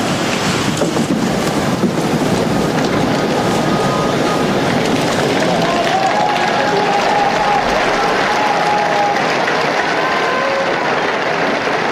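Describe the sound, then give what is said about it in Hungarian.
A vast crowd of pilgrims applauds at the close of Pope Francis's general audience. The loud, continuous clapping forms a broad, surf-like roar that holds steady throughout. “Mai napon is tapssal ér véget Ferenc pápa általános kihallgatása.”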